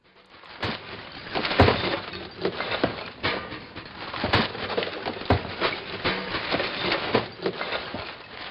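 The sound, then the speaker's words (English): Compost and recyclables are thrown into garbage as many irregular clunks, rattles and glassy clinks, some sharper than others, over a rustling background. “This is the sound of compost and recyclables going into the garbage.”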